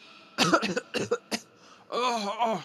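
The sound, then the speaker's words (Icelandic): A voice performs a terrible, harsh cough for a shadowy creature: a few rough coughing bursts, then a longer strained, voiced rasp with a wavering pitch. “Skuggaveran gefur frá sér ægilegan hósta.”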